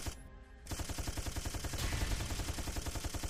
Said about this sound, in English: Let's just fire our gun.